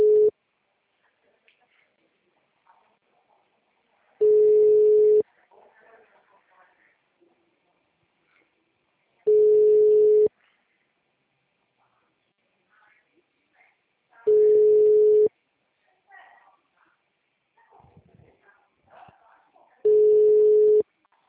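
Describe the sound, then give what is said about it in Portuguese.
Telephone ringing tone while a call is being placed: five long, steady, mid-pitched tones repeat at even intervals of about five seconds, with faint softer sounds in the gaps between them. “Eu peguei alguns que já tinha contato, tô tentando ligar.”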